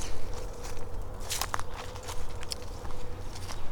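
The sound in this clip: Footsteps in a video game as a character walks toward an owl: soft, crunching steps at an irregular pace, fairly faint over a low, steady background hum.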